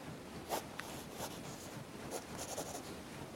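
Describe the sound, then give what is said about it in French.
Faint scratch of a pen drawing a smile on a clown picture on paper: a few short, light strokes over a quiet background. “Comme je suis sûr qu'il t'entend, je lui dessine un sourire de contentement.”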